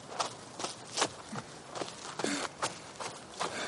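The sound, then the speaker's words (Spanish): Footsteps of two people walking along a dirt path beside a neighborhood. Soft, gritty steps land in a steady, brisk rhythm over a faint background hiss, with no voices. “Camina con Malgosia por un camino de tierra junto al barrio.”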